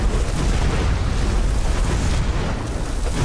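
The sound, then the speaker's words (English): Fireball attacks exploding in a video game boss fight form a continuous loud, dense roar of blasts, with no separate hits standing out. “Start pelting him with fireballs.”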